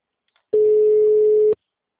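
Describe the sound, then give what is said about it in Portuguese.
One steady ringing tone from an outgoing telephone call that goes unanswered, a single flat beep lasting about a second, with no voices. “Vou fazer uma ligação, hein? Oi, bom dia, Nildeli. Ah, nem atendeu.”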